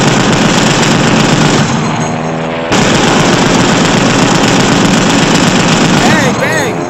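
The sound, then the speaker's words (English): Rapid gunfire shooting at the enemy in a battle, loud and continuous bursts of crackling shots that barely let up, dipping slightly for a moment midway before resuming at full force. “I'm shooting the bad guys.”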